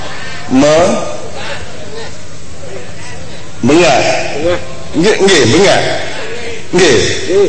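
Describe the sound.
A human voice imitates a goat's bleat with wavering, quavering cries, a few loud bursts separated by pauses, set amid animated talk.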